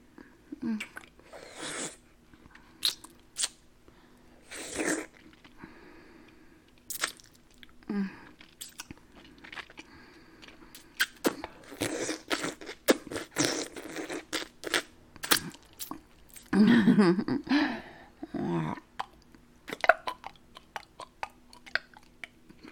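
Wet sucking and biting on a popsicle, heard alone as irregular bursts of smacking, slurping and crunchy bites with short quiet gaps, loudest in a longer cluster near the end.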